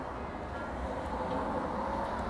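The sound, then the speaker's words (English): A car driving by outside gives a steady, low rumbling roar with broad hissing noise that holds at an even level throughout, with no talk. “whenever a car drives by or something, I try to not talk so you guys can hear me properly, like right now.”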